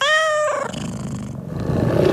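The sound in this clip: A tiger growl sound effect in an advertisement: a brief harmonic cry gives way to a rough, low, rumbling growl that holds steady for about two seconds, with no speech.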